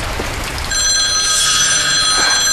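A telephone rings with a bright, steady electronic trill that is loud and continuous throughout, with no talking over it.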